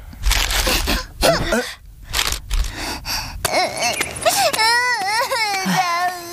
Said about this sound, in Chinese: 天天乖，不哭了啊！ 天天乖啊，不哭不哭。